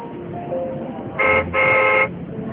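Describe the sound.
A car horn honks twice, a short toot and then a longer, steady blast, over constant low background noise.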